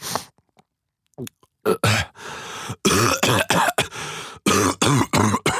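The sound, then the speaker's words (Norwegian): A person coughs and clears their throat over and over, acting out a sick week. After a near-silent start come many loud, rough bursts, some short and hacking and some longer and rasping, with brief pauses between them. “hører vi sånn hosting og harking når du kommer.”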